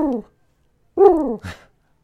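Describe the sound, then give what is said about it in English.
A human voice imitates a pigeon cooing with low, throaty, harmonic coos: a short one, then a pause, then a longer coo with falling pitch and a brief final note. “Did you like my pigeon cooing?”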